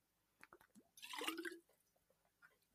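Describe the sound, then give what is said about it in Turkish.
A person drinks water: a few faint clicks, then one wet gulping swallow in the middle, very quiet, with small mouth sounds after. “pardon su içmem lazım oldu”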